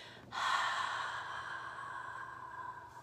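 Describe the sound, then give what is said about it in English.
A long breathy exhale through an open mouth, starting abruptly and trailing off slowly over a couple of seconds, with no talk. “exhaling out an open mouth, pressing the arms away.”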